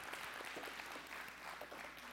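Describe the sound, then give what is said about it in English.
Congregation clapping hands during a church service, a faint, dense and steady wash of applause with no clear pauses. “Can we just give the Lord a hand clap?”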